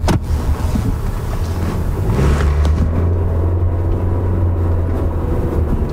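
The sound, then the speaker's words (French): A car drives along Boulevard Saguenay toward Arvida, its steady low road rumble and engine drone filling the cabin at an even, loud level throughout, with no voices. “Je roule actuellement sur le boulevard Saguenay.”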